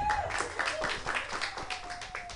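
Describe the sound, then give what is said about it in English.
Audience clapping at a comedy open mic night: a dense, steady patter of hands that holds at an even level for the whole moment. “You guys, clap your hands together.”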